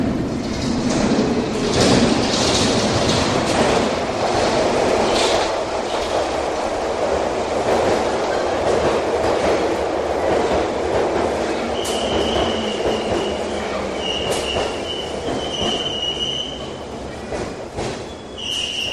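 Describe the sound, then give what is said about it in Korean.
A subway train rumbles out of a dark tunnel with a steady heavy roll and rattling wheels. High metallic wheel squeals rise over the rumble in the second half, with no voices. “곧 어두운 터널에서 지하철이 고동 소리를 내며 나타납니다.”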